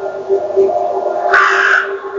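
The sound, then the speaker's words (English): Crows caw from a carriage house roof, where about a dozen birds are gathered. Harsh caws repeat and overlap, ending in a louder cluster. “there was a group of crows that came and lodged on the carriage house. In fact, they have stayed there.”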